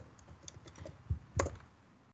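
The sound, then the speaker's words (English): Quiet keystrokes on a computer keyboard as a short command is typed into a health chatbot. A handful of light, uneven clicks come in a brief burst, with the firmest taps near the end. “so to end this scenario, just type cancel.”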